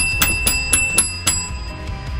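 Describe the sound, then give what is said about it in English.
A bell is rung in a studio with a quick run of about five bright, clanging strikes that keep ringing on, followed by a few fainter taps. “We've walked in to ring the bell.”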